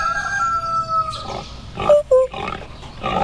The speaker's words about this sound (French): Il y avait une basse-cour avec des poules, des coqs